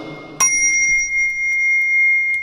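A bell is struck once at a Buddhist temple, giving a bright, high metallic tone that rings on steadily for the rest of the moment, with nothing else prominent.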